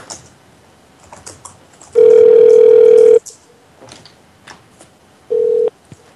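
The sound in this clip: Telephone ringback tone from a call ringing out before going to voicemail: one long steady ring of over a second, then after a pause a second, shorter burst, with faint scattered clicks in between.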